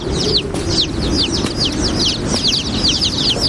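A chick peeps in shrill, high, falling chirps, repeated many times in quick succession. The calls carry over a steady low background rumble.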